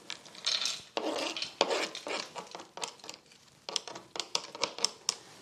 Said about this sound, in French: Et maintenant qu'on ajoute les noix de cajou dessus, parce que tout est prêt